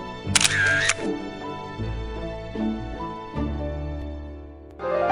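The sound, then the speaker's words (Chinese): A camera shutter snaps as a father photographs himself with his two young children: a single short, bright click near the start, followed by sustained tones. “拿起相机对着三个人。好了，现在爸爸要和小公主、小王子一起拍照了。来，一、二、三。”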